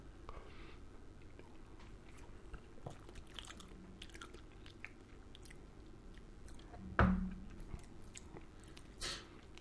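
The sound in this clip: Quiet chewing of a large spoonful of firm, yellow potato food: soft, moist mouth sounds with one louder bite or crunch partway through and a smaller one near the end.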